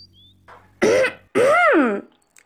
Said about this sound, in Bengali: mobile রেখে একটু গলা ঝাড়া দিয়ে প্রশ্ন করল